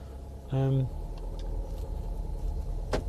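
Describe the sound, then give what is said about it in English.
Car starting up: a short electronic warning beep, then a steady low engine rumble running to the end. “Excuse the beeping as I start up the car.”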